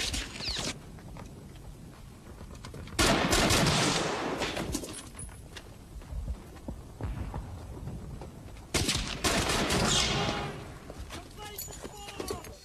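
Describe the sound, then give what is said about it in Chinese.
M1 rifle gunfire from the Normandy beach landing scene of Saving Private Ryan: sharp, loud bursts of shooting and heavy blasts that come in waves over a constant battle din, with voices in the mix. “M1 在火力强度上优势十分明显，在影片《拯救大兵瑞恩》里登陆诺曼底海滩的片段中，M1 式步枪就发挥了巨大的威力。”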